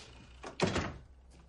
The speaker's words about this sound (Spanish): Enciende la luz. Cierra la puerta.